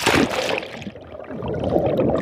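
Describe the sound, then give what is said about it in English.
Muffled underwater sound in a volcanic lake in western Guatemala: bubbling and gurgling water, louder in a brief burst at the start, then a low, murky churn. “To better understand what I mean, we've got to go underwater.”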